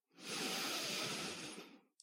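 One slow, soft breath during a seated relaxation exercise: a faint airy hiss that swells and fades over nearly two seconds, heard alone.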